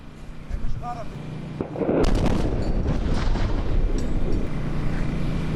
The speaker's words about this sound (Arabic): غارة، غارة على الهواء يا جماعة، غارة.